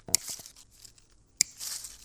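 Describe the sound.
Two sharp snips of pliers cutting the wire embedded inside plastic artificial leaves at a tree maker's workbench, each a crisp crunching clip followed by light crinkly plastic rustle.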